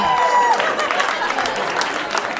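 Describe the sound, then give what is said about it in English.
Applause rises from a stand-up comedy crowd, a dense, loud patter of many hands that holds steady and then eases slightly, with a voice briefly heard over the start. “White people, have a round of applause for white people.”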